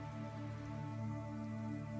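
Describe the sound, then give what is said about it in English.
Faint, steady rainfall, after dry heat: a soft continuous patter with a low steady hum beneath it and no voices. “The rain's rather soothing after dry heat.”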